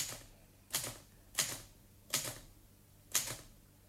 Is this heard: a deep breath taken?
no

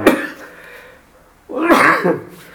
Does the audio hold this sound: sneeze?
yes

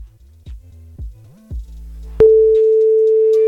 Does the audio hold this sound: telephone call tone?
yes

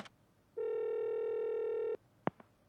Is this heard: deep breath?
no

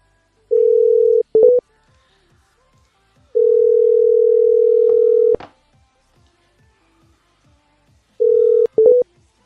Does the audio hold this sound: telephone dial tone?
yes

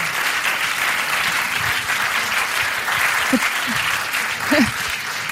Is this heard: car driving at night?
no

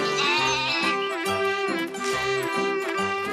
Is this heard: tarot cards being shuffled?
no

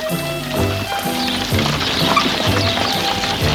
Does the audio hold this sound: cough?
no

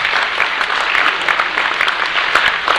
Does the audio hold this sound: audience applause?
yes

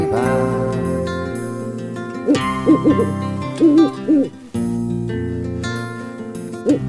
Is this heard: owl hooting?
yes

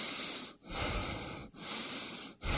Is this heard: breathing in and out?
yes

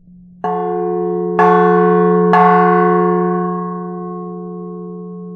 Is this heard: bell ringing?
yes

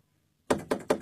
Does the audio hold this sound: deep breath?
no

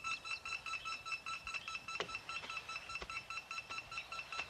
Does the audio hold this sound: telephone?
yes

